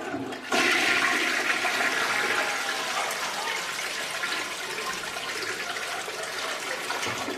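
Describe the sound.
A toilet flushes, starting abruptly after a brief quiet moment, then a loud, steady rush of swirling and refilling water that continues evenly to the end, with no voices.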